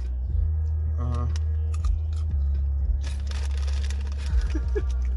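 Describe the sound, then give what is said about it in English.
Crunchy chewing of popcorn over a steady low hum, with scattered crackly bites that grow denser and louder toward the latter half. “Dude, isn't that popcorn fucking delicious?”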